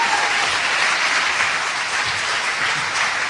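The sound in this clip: Applause from an audience welcoming a guest speaker at a Thanksgiving weekend church service: steady, even clapping from many hands that fills the whole moment.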